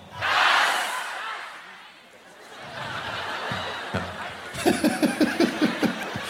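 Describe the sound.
A crowd shouts a single word together in one loud burst, then settles into laughter and murmuring. A quick run of rhythmic, punchy group shouts follows, like a chant answering a host.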